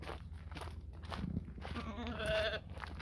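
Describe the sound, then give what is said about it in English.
Market lambs on a hobby farm bleat in a few short, wavering cries over low rustling and shuffling from the animals. “These are the actual market lambs that we're going to be selling. So we've got six of them here.”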